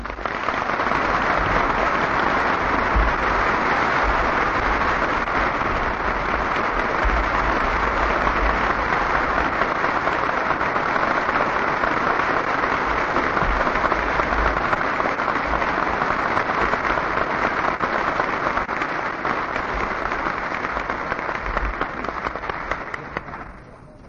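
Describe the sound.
An audience applauds after a Richard Nixon speech in California, a dense, steady wash of clapping that holds at even loudness for the whole span and thins slightly at the very end.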